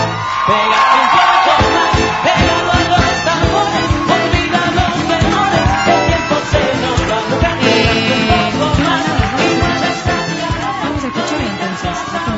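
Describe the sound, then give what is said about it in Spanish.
A crowd shouts and cheers as a performer makes an entrance, a loud, continuous roar of whoops and yells sustained without letup for about twelve seconds. “Mira, escucha todos los gritos. Ahora es cuando está entrando.”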